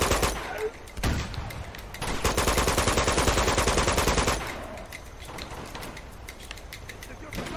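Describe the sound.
Rapid automatic gunfire from a big rifle in a video game. A dense, loud stretch of fast shots sits in the middle, with lighter bursts before and after.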